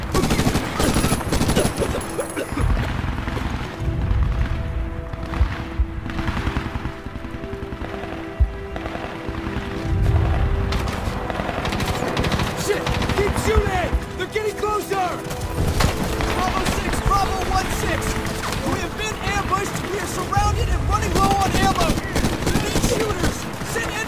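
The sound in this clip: Rapid automatic gunfire rattles almost continuously in loud bursts as magazines are emptied, with booming impacts mixed in. Voices talk over the shooting throughout.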